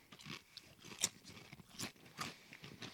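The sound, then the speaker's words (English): Crisp crunching from biting and chewing a thin, traditional taco-seasoned Lay's potato chip: a few faint, brittle crunches at an uneven pace, with no talking. “The one negative is it's the traditional thin Lay's chip. Which is butt. This tastes like a taco to me, taco seasoning.”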